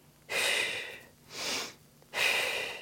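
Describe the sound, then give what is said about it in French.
Breathing in while pulling the belly in and drawing the pelvic floor upward: three loud, hissing inhalations, each a sustained breathy rush. The middle breath is softer and shorter than the others, with quiet pauses between them. “Donc, je rentre le ventre en inspirant. Bien là, je suis en train de tirer mon plancher pelvien vers le haut en inspirant”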